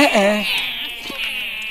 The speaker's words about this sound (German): Nein, ist ja gut, alles gut, nicht weinen. Warum weint ihr denn immer noch?